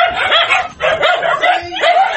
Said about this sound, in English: That is the sound of 164 emaciated dogs that have been crammed into a tiny house in western Japan.